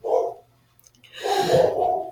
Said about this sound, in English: Why is the dog barking?